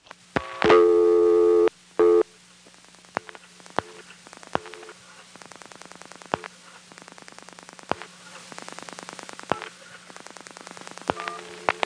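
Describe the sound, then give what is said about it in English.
A step-by-step tandem telephone exchange handles a pulsed toll call: a steady buzzing tone sounds for about a second, a brief second tone follows, then many sharp, irregular switching clicks tick over a low constant hum. “This is a call that is pulsed into a step-by-step tandem. Toll calls have a distinctive sound, so listen for that sound after I finish dialing.”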